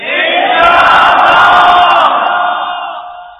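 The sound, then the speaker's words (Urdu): A massed religious gathering loudly chants the slogan Inshallah in unison, one powerful sustained roar of many voices that holds strong for about two seconds and then tapers away. “تو آپ نیت کر کے انشاءاللہ کا زوردار نعرہ تو لگا دیں.”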